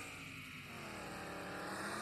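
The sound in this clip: A car engine in an AR racing video game drones at a steady, fairly constant pitch, a dense buzzing tone with no voices.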